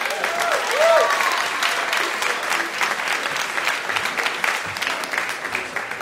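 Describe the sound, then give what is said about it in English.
An audience claps warmly to welcome astronaut Mike Massimino as the final guest of a live show. The applause is steady and full throughout, swelling slightly near the start. “Would you please give a warm hand to Mike Massimino?”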